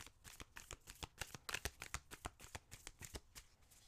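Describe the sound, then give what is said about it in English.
Crystal gemstone oracle cards being shuffled, a fast, uneven run of many crisp papery snaps and flutters, soft overall, with no voices. “Let's get the crystal slash gemstone cards.”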